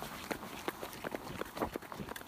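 Running footsteps of a person, with many quick steps in an uneven rhythm, fairly faint over light background noise.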